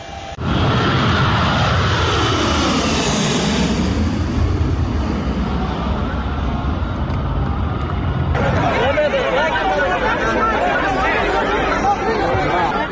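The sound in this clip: Loud, steady aircraft engine roar from a plane at a crowded airport, with people gathered under its wings near the engine. Sweeping pitch swells mark the first seconds, crowd chatter blends in throughout, and the noise turns harsher and brighter partway through.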